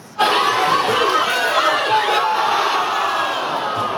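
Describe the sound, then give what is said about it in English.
Dozens of fans at a Portuguese community center in Gatineau cheer during a World Cup match involving Portugal: a sudden burst of loud crowd shouting and cheering that stays strong and sustained throughout. “And this was a scene at the Portuguese community center Les Amis Unis in Gatineau, where dozens of fans cheered their team on.”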